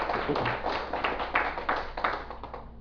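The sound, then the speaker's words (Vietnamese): An audience at a Vietnamese Buddhist dharma talk applauds as the teaching is introduced. Many hands clap in a fairly dense, pulsing patter that thins out and grows quieter toward the end, with no voices heard. “Xin quý vị vỗ tay bằng phía tay.”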